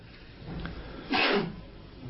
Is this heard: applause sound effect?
no

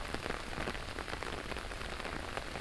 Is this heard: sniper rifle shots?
no

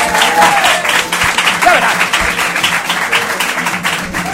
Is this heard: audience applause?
yes

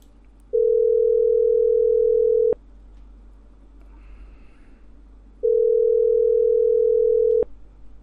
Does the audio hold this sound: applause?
no

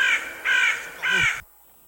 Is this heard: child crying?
no

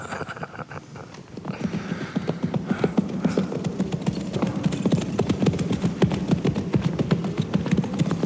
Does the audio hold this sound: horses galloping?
yes

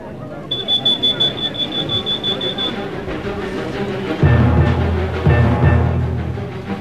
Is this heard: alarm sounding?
yes

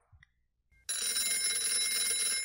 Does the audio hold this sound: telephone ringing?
yes

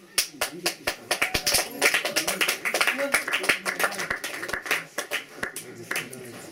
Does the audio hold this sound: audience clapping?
yes

